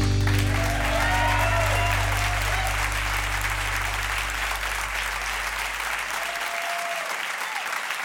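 Audience applause welcoming the host onto the stage of a small hall at a live music show, a dense, sustained wash of clapping beneath a low tone that fades out near the end.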